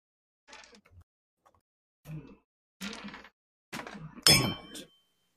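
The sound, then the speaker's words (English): A twenty-sided die is dropped during a tabletop role-playing game, landing with a sharp clattering burst amid a few quieter knocks and shuffles. “I dropped a dice. And there's the D20 I just dropped.”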